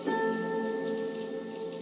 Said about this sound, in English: The rain is falling. And it continues to fall. Drop after drop.